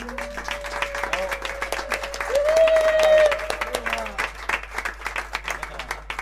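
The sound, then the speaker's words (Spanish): Audience applause at a live music show as band members are introduced: distinct claps in a fairly quick, uneven patter over a held tonal note that steps up in pitch, swells loudest midway, then fades as the clapping continues. “otro aplauso”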